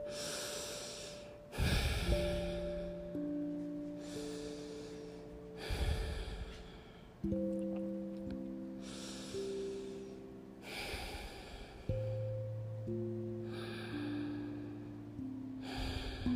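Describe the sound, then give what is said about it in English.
Deep cleansing breaths taken during a guided relaxation exercise: several slow, airy inhales and exhales that rise and fall over soft, sustained musical tones. “I'm going to take three or four cleansing breaths and do it with me.”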